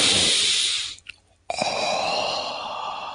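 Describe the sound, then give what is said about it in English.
A deep, breathy inhalation during a guided healing-energy breathing exercise: long airy rushes broken by a brief near-silent pause, then a steady sustained intake of breath. “We're going to send some more energy now. Take another deep breath in.”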